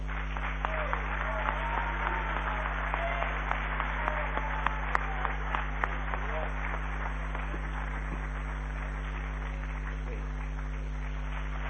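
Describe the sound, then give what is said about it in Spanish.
Muffled audience applause welcoming a guest onto a talk panel, a steady clatter of many hands mixed with voices talking, occasional sharper claps standing out, and a low electrical hum underneath. “¡Aplauso para Gaby!”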